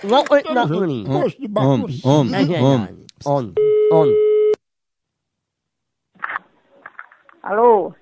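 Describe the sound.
A telephone call tone sounds once as a steady, buzzing note lasting about a second. It follows a stretch of lively talking, then silence, and a few short voiced sounds come after.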